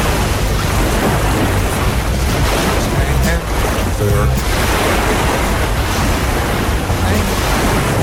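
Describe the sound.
Sea waves surge and wash in a loud, continuous roar of surf that holds steady throughout without clear breaks.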